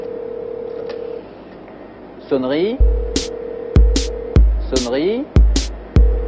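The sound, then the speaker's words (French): A telephone picked up and a computer's number dialled: a steady dial tone, a series of sharp clicks, and two short warbling electronic tone sweeps between them. “Eh bien, je décroche le téléphone, j'appelle le numéro de l'ordinateur,”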